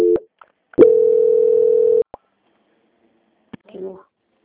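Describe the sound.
Telephone tones sound as a bank call is transferred: a short beep, then a steady mid-pitched tone lasting over a second. A few sharp clicks follow, then a brief, softer burst of tone.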